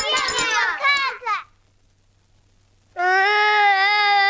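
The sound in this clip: Young child crying: a burst of high, wavering wails that break off, a short quiet gap, then a loud sustained high-pitched cry that continues to the end.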